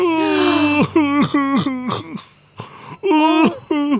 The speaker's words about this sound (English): In fact, this very hairy being is sobbing.